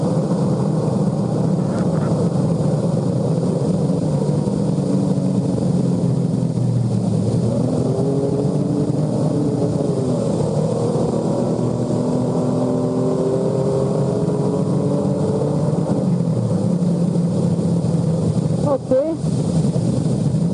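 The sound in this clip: A racing car's engine drones at maximum speed in fifth gear on a fast, bumpy stretch of the Nürburgring, a sustained, steady roar under the driver's running commentary.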